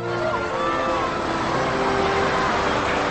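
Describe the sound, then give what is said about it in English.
A car being driven gives a steady, unbroken rumble of engine and road noise that holds an even level throughout, with faint higher tones drifting over it. “as Will drives, Mason and Kevin arrive at school”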